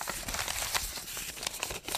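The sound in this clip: Small paper slips rustling as questions are drawn from a knit cap, a quiet, irregular run of crinkling and shuffling bursts throughout.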